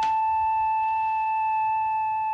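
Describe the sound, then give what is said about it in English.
A smooth, flute-like sine wave tone sounds alone, holding one steady pitch at an even, constant loudness from start to finish. “The simplest one of all is something that any lab technician must have seen at one time or another. It's called a sine wave. It's very smooth, very flute-like.”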